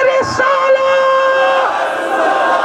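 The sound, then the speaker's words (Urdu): A crowd at a religious gathering loudly shouts the answer to the Takbir slogan in unison, a sustained, resonant collective chant of many voices held for a couple of seconds. “نعرہ میں لگاؤں گا, جواب آپ دیں گے. نعرہ تکبیر آخر تک, آخر تک. نعرہ تکبیر,”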